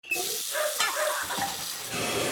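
Water runs from a sink tap during a plumbing problem, a steady hissing splash that carries on throughout with only slight swells in loudness.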